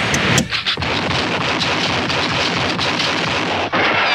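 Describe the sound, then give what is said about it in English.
Rifle fire from The Rifleman TV show: sharp cracks, with a couple of bursts near the start and another near the end, sit in dense, loud noise that fills the whole stretch. “Chuck Connors pretty good with that rifle, isn't he? He always hits what he aims at.”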